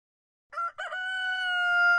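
A rooster crows on an asparagus farm where a few hens are kept. There is one long crow that breaks in after silence, with two short bursts and then a strong, sustained harmonic tone held to the end, with no voices.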